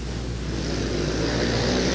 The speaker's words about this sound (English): Big guys on little motorcycles.